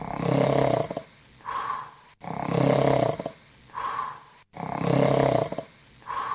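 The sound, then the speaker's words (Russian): Loud snoring from a wolf asleep in bed after a big meal, imitated by a human voice. Three even cycles each pair a long, rasping, rumbling inhale with a shorter, higher, whistling exhale, repeating in a slow, regular rhythm. “Довольный и сытый волк лег в кровать и сразу уснул, громко захрапев.”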